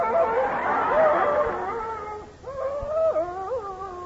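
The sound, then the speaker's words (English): A man howls like a wolf in two long, wavering voiced howls. The second swoops up and down in pitch, and there is faint noise behind him. “Gee, he's crazy, howling like a wolf.”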